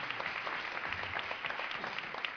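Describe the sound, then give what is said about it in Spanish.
Applause at a band concert greets a new band member as he is introduced. The clapping is steady and dense, with many overlapping claps at a constant moderate level. “Un aplauso para él.”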